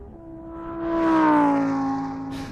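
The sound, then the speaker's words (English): An Aston Martin car drives off with a smooth engine hum that swells in loudness, dips slightly in pitch and then fades, with no talk. “now are we going to drive back to New York in the Aston Martin, or are we flying? I'll take the Aston Martin.”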